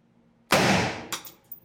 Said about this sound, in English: This one's going to be a little bit louder. Now, look at the AR-15 round.